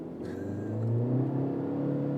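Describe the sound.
A Honda car engine revves, its steady mid-pitched hum climbing in pitch about halfway through and then holding high and loud, with no talk.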